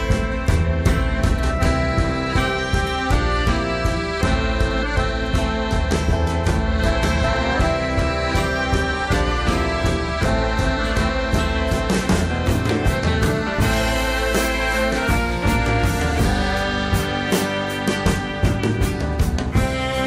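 Band music composed to accompany a polar bear scene from a book: a dense, continuous arrangement with a heavy low end and quick, regular rhythmic accents, played fairly loud throughout with no voices.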